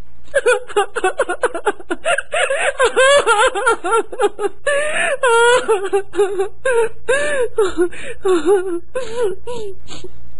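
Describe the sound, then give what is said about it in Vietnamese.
A woman's loud, anguished crying and wailing: many uneven sobbing bursts with a wavering, quivering pitch that carry on for about ten seconds, with no clear words. “Cẩm Vân nói tới đó rồi nàng khóc lớn lên, nghe rất bi thảm”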